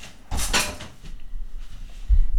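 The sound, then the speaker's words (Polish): A window being closed: a burst of rubbing, sliding noise, then a pause and a short, dull low thump as it shuts. “Może najpierw zamknę okno, a później jeszcze coś Państwu zademonstruję.”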